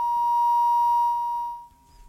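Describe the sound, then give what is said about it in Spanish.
A single long electronic beep marks a dropped phone call, holding one steady mid-high pitch for about a second and a half before fading out. “Llamamos nuevamente, se cortó la llamada.”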